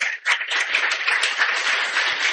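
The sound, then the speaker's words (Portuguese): An audience at a church celebration applauds seminarians with dense, steady clapping that dips briefly near the start, then holds an even level to the end. “A presença dos nossos seminaristas, do Seminário Maior e do nosso Seminário Propedêutico. A eles também a nossa gratidão e as nossas palmas.”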